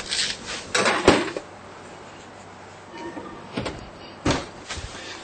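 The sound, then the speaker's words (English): Clattering of a metal baking tray lined with parchment and holding dough balls as it goes into the oven, with a few short knocks and bangs, a busy cluster at first and then two later thuds. “I have a tray here with some parchment paper, and I'm just going to stick these on here so they don't touch. And now we're going to put this in the oven.”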